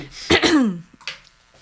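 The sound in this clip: A woman clears her throat with a raspy, gravelly burst, followed after a brief pause by a fainter, shorter second clearing.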